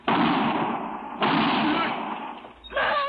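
Gunshots during a holdup scene: three loud, sharp blasts, each trailing off in a rough, noisy decay. The last one is followed by a brief tonal sound.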